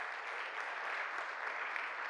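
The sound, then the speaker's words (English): A church audience applauding: a dense, steady wash of many hands clapping, even in level from start to end, with no single claps standing out. “You can clap it up for that.”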